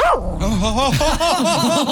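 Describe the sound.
A dog barks and yips in a rapid, excited run of high, wavering yelps that stays loud throughout.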